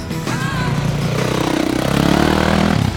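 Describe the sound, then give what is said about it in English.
A dirt bike engine drones steadily during a walk to a park, a loud, buzzy, pulsing rumble that swells slightly louder toward the end. “I hear a dirt bike.”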